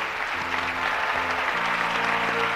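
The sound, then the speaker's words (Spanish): An audience applauds to welcome a group of comedians, with dense, steady clapping that continues at an even loudness throughout. “Espero que estén ustedes cómodos, que estén ustedes cómodas y que sepan recibir con un fuerte aplauso a estos humildes cómicos”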